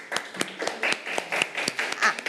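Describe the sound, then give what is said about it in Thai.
Classroom clapping for a classmate after a group presentation, a few hands striking in an uneven series of sharp, distinct claps rather than a dense roar. “ตัวแทนกลุ่มที่สองปรบมือให้เพื่อนค่ะ”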